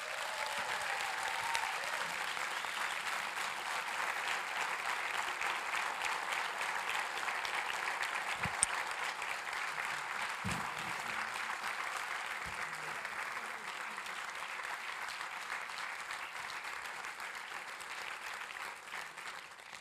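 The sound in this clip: Sustained applause from a church audience at Strong Tower Bible Church welcoming a guest preacher to the pulpit, a dense, even clapping that holds steady for about twenty seconds with a few soft low thumps underneath.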